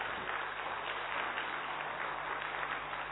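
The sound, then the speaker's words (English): Audience applause for first-timers at a spiritual gathering, an even, continuous wash of many clapping hands with a dull, muffled tone that holds level throughout. “So big round of applause for all of these first-timers.”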